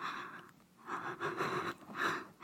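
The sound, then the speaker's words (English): Soft breathing very close to the ear, a few slow, airy inhales and exhales rising and falling in a gentle rhythm, quiet and intimate with no talk. “Does my breath tickle your ear like this?”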